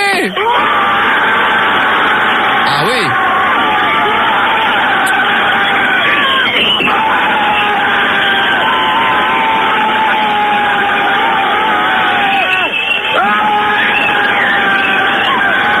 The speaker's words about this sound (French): Attention, la ville de Nice, deuxième essai. 1, 2, 3, allez-y, faites du bruit!